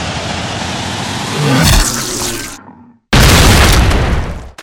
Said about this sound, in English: Yeah, I packed the explosive shells.